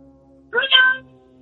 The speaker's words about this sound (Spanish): Él tiene un gato de verdad. Sí, ¿eso es un gato de veras, compadre?